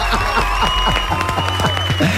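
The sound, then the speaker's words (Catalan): Studio audience applause: a dense patter of clapping runs throughout, mixed with sustained tonal sounds. “Lara García, un aplaudiment, que avui has arribat puntual.”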